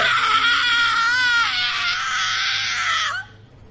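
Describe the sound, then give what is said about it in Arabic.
A long, high-pitched scream from somewhere in a room, held for about three seconds. The wavering tone dips lower partway through, then breaks off abruptly. “قطع كلامي صوت صرخة جات من مكان في الأوضة”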